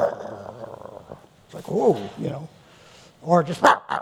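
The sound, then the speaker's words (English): A voice imitates an irritable old dog snapping, giving a few short, throaty growling bursts with rough barking snaps, separated by brief pauses. “Have you ever seen an old dog like that? You know, you walk past it, and it's like,”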